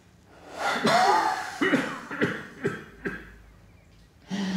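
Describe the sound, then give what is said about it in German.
A patient takes a deep breath in during a lung examination: a long, loud, breathy intake followed by several short, sharp breathy bursts that fade toward a quieter end. “Bitte einmal tief einatmen.”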